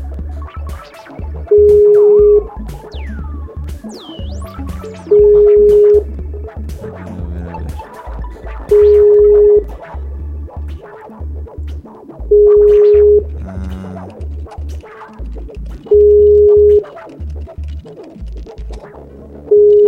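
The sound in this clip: An unanswered telephone call rings out as five identical steady ringback tones at even intervals, with a sixth beginning at the end, over low scratchy line noise.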